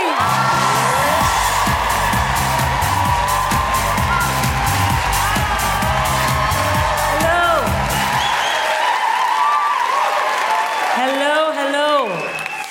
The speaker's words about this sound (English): Put your hands together and make incredible woo-hooing, welcoming noises for the wonderful Sindhu V.